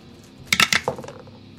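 Dice rolled on a table during a tabletop role-playing game give a quick burst of rattling clicks and clacks over about half a second, then settle into quiet.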